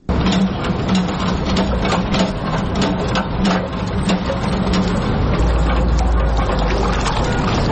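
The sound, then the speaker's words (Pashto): Water runs from a tap in Kabul with a loud, steady rushing noise that continues unbroken throughout, over a low hum. “راپور د اوبو د نل په ژغ پیلېږي”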